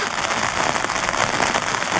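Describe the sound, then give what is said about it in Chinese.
Sudden rain falling, a dense, steady hiss of pattering drops that carries on without pause at a fairly loud, even level. “这怎么突然下雨了？”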